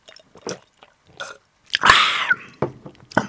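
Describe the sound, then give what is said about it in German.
Gulping and mouth noises as someone drinks sparkling wine from a large bottle: a few soft clicks and smacks, then a louder hissing swallow about half a second long, followed by a few quieter mouth sounds. “Warte mal, ich trinke mal einen Schluck.”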